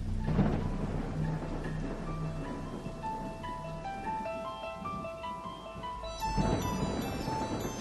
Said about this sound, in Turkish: Yağmurda durmak bilmiyor.